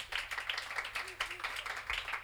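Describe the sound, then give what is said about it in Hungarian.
Applause from a jazz concert audience as the drummer of a quartet is introduced: many quick, faint claps overlapping in a continuous patter, with a voice briefly audible partway through. “a nagyszerű Mihalik Ábel fog dobolni, hatalmas tapsot neki.”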